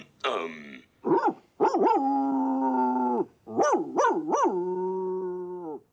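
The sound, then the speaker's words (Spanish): Dog howling and whining with a short bark: long, sustained mid-pitched howls and shorter rising, wavering cries in separate bursts, loud and clear with no voices. “Un aullido largo, dos cortos, un gemido y un guau.”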